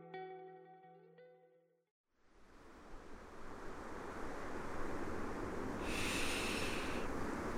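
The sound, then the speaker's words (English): Ocean waves hitting the sand on a Southern California beach: a broad, continuous rushing wash of surf that builds and stays loud, coming in after a few seconds of soft tonal music at the start. “Salty air is filling up my nose. I'm about 1,000 miles from the beginning of the Colorado River. I'm watching wave after wave hit the sand in Southern California.”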